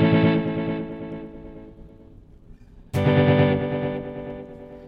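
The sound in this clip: A tape delay echo with feedback on the fourth head: a bright, slightly distorted tone fades away, then returns at full loudness as a repeat and slowly decays again.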